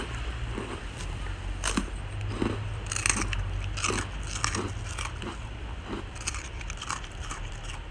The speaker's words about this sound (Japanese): おいしいか、よかったね、おせんべいもらって。これは私が食べる音。